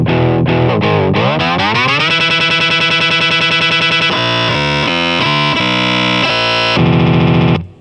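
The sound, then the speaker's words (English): Distorted electric guitar run through an expression pedal and a looping delay, with pitch and speed shifting. The tone bends down and then sweeps up, breaks into rapid stuttering repeated notes and shifting loop fragments, stays loud throughout, and cuts off abruptly. “So this expression pedal is doing the pitch. Okay. Pitch, and it does speed a little bit too.”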